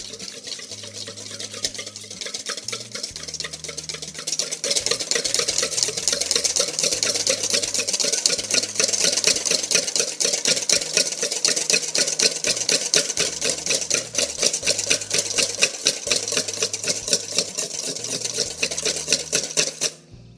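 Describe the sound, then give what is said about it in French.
Rapid, steady whisking of cream into Chantilly: a dense run of fast scraping strokes that starts softer, then turns loud and continuous from about five seconds on, with no talk. “Et donc je vais fouetter ma crème. Je vais la rendre en chantilly.”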